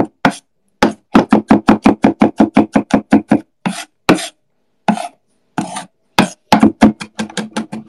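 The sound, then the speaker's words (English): Rapid knife chopping as garlic is minced on a board: a long run of many quick, evenly spaced strikes, then a few scattered, irregular bursts of chops separated by short pauses. “Mincing garlic.”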